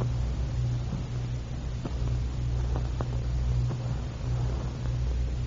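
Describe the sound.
A car drives along a road, its engine a steady low rumble and hum with a faint hiss of road noise and no voices.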